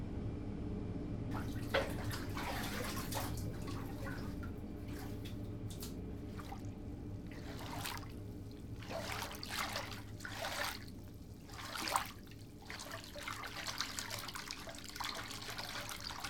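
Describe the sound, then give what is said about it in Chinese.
Bathwater runs into a tub with a steady, faint splashing trickle that continues unbroken throughout, marked by a few slightly louder spurts and drips. “主人，洗澡水已经放好了，现在可以去洗漱了。”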